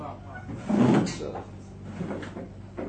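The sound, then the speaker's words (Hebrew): A door being closed, heard as one dull, low thud near the first second while people talk quietly around it. “אפשר אולי לסגור את הדור? לא חם לכם מדי.”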